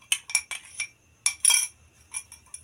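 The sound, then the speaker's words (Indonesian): Spoon clinks against a bowl as foaming martabak batter made with baking soda and baking powder is stirred: a series of sharp, bright, irregularly spaced taps with quiet gaps between them. “Kita aduk lagi sampai liket adonan martabak ini.”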